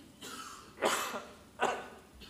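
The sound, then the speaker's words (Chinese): Coughing from a preacher who is slightly unwell: two harsh, fairly faint coughs close together, with no talk around them. “不好意思，我這幾天有點少少不舒服，所以講講下又咳這樣，請大家忍耐。”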